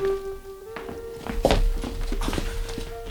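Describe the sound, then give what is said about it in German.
A door opening: a dull thunk followed by a few soft, irregular knocks like footsteps, moderately loud over a steady low hum. “Dann endlich öffnete sich die Tür.”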